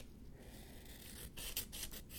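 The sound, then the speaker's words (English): Scissors snip through a paper page, a faint soft rasping and scraping with a few brighter, crisper cutting strokes near the end. “This page is taking longer to snip than I thought, but I guess that means it's just lucky for you. More audio to listen to. Also, it's my scissors are kind of squeaking on the paper a little bit.”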